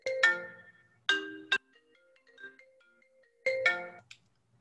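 Phone ringtone for an incoming caller: a bright, melodic electronic tune plays in a few loud, clipped bursts, with quieter scattered notes between them and no voices.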